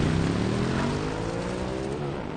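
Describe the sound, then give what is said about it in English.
A motorcycle speeds forward down a hill, its engine giving a loud, steady droning hum that eases off slightly toward the end. “The motorcycle speeds forward, down a hill.”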